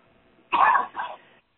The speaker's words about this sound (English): My apologies for having a little bit of a cough.